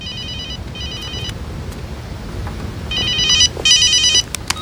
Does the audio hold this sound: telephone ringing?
yes